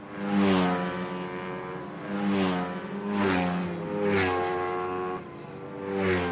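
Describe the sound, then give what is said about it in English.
Go-karts, small racing cars about 6 feet long, race in the finals of the 2012 Irish Go-Karting Championship, their buzzing high-revving engines droning loudly and swelling and fading as several karts pass in turn. “Go-karts. They're toy-sized racing cars, about 6 feet long by 4.5 feet wide,”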